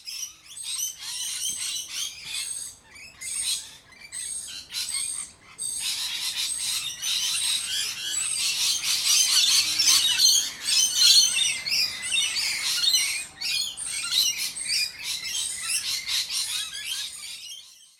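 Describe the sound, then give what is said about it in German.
Rainbow lorikeets calling from a tree full of birds: a dense, continuous mass of shrill, screeching chatter from many birds at once, loud and unbroken throughout, with no talking. “Habe dann auch mal das Mikrofon mit unter den Baum genommen, um hier in diesem Podcast auch einen akustischen Eindruck von einem Baum voller Loris einfließen lassen zu können.”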